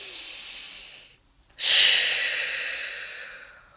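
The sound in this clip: A deep belly breath: a soft, airy inhale, a brief pause, then a louder, long breathy exhale that slowly fades, with no talking.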